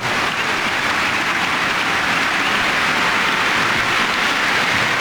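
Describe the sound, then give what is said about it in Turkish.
Stadium crowd applauding a Norway attack during a football match, a continuous, hissing roar of many hands clapping that stays level and unbroken throughout. “Alkış aldı. Norveç hücumu özellikle Ayer'in katkısıyla.”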